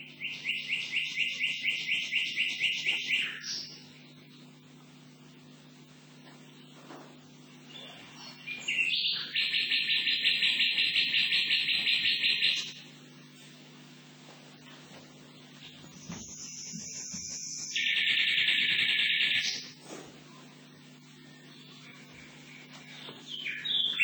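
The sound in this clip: Recorded song of a nightingale, the sayonakidori: several loud phrases of rapid pulsed trills and sustained high whistles, separated by pauses, over a low steady hum.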